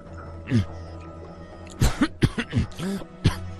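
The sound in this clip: Choking coughs after something went down the wrong way: one early cough, then a cluster of harsh, voiced coughs and throat-clearing sputters, loud and uneven.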